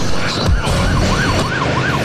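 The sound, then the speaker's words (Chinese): Sirens wail from police cars surrounding a hotel. The tone rises and falls in a repeating cycle several times over a dense, noisy rumble. “此时，数辆警车包围了金光大酒店。董杰率领一支武装警察跳下警车”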